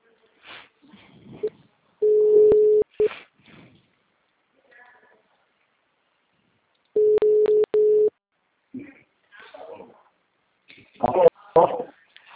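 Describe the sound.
Telephone ringback tones as a call is placed: two bursts of a steady, mid-pitched ringing tone several seconds apart, with brief voices and other noises around them.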